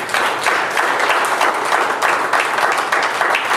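Applause from a church audience: a dense, steady wash of many hands clapping, loud and continuous for the whole stretch with no voices standing out.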